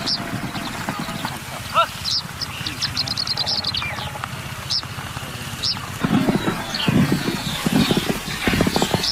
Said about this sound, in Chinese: 蒙古包前一骑飞驰，发生什么事了？